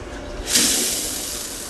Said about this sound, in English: Yeah, that's the sound of a shower.